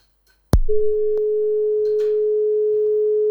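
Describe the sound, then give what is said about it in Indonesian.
A telephone line tone sounds after a caller's call drops: a sharp click, then a loud, steady, unbroken single-pitch tone that holds to the end. “Aduh, Kak Ida kok mati sih? Kak Ida teleponnya coba ditelepon lagi, coba ditelepon lagi.”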